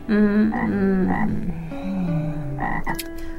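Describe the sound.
A toad croaks in a few loud, raspy, harmonic calls in quick succession, with no voices.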